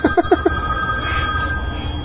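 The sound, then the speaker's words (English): A phone ringtone plays through a venue's PA system at Tupelo: a few quick warbling tones at the start, then sustained, steady electronic tones ringing on. “That's someone's phone going through the PA system here at Tupelo. that's the second time.”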